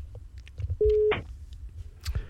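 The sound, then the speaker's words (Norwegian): A telephone rings as a quiz contestant is called: one short, steady, mid-pitched tone, with faint background noise before and after it. “Og da skal det ringe. Ja da, teknologien fungerer.”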